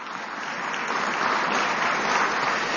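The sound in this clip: Audience applause at a speaking event as a guest is thanked, a steady wash of dense clapping that grows slightly louder toward the end.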